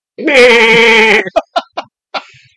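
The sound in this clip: A human voice imitates a goat with one loud, long, quavering bleat whose pitch wobbles throughout. A few short, clipped vocal syllables follow it.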